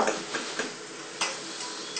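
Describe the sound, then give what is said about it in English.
A spoon stirs custard as it heats and thickens in a pan, making soft, quiet scraping taps at a few irregular intervals over a faint background hiss. “Yeah. Keep stirring. So there'll be no lumps.”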